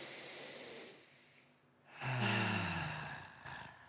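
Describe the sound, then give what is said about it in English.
A deep breath in during a guided relaxation exercise: a long, airy hiss of inhaling that fades, then a louder breathy release with a hummed, voiced tone that slowly tapers off. “take a deep breath in”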